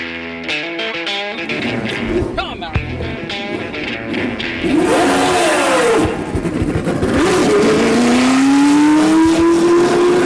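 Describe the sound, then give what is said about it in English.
A black and gold 1978-79 Lotus race car fires up on a track, its engine revving loudly in repeated bursts before settling into a steady note that climbs in pitch toward the end. “And that was Mario Andretti's 78-79 black and gold Lotus firing up on the track at Circuit of the Americas.”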